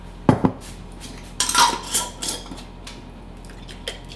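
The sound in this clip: A jar of salad dressing with a little maple syrup, salt and pepper is shaken, giving a few short clinking, rattling bursts separated by quieter gaps.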